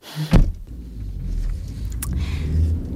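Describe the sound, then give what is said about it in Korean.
A car starts to move off: a short thump comes at the start, then a low engine rumble builds gradually and grows slightly louder, with no voices. “차가 움직이기 시작했고요.”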